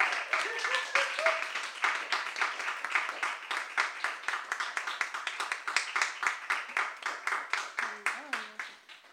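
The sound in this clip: Scattered applause from a small audience welcoming poets to the stage at a poetry reading: a steady patter of individual claps that fades and thins toward the end.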